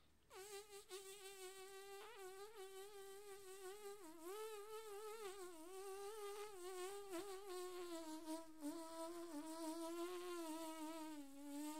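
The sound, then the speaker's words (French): Bumblebee buzzing as one continuous, loud drone that holds a steady tone while its pitch wavers slightly up and down throughout. No voices are heard. “El bourdon. No moustique.”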